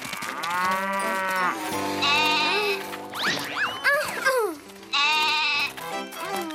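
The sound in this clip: Goat bleating: several loud, wavering, nasal bleats, each lasting under a second, separated by short pauses and lower background noise.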